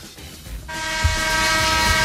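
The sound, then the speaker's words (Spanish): A horn blares with a steady, sustained tone that starts about a third of the way in and holds unbroken to the end over a low rumble. “Toca la bocina que te despacho ya.”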